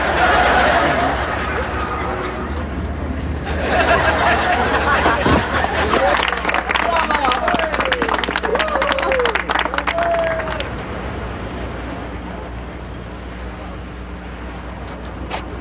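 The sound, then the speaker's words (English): Crowd hubbub and passing traffic at Speaker's Corner in London: a steady babble of many voices with a stretch of dense clattering noise in the middle, easing to a quieter murmur later. “What's this? Well, Winston says this is Speaker's Corner. People come here to listen to just about any idiot spout off about anything that's bothering him.”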